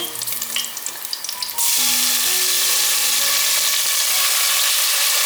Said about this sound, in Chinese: 油热了之后放入姜片。把姜片稍微炒香